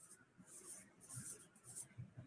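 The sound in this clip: Pen drawing on paper in quick, light scratchy strokes, a series of faint rasping bursts with short pauses between them.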